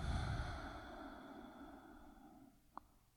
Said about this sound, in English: Inhale all the way. Exhale everything out.